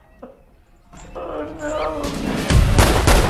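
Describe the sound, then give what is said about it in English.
Gunfire exchanged between two characters in a film scene. A few loud, sharp shots burst out in the last second over a rising, rumbling background. “Zep and Tap exchange fire.”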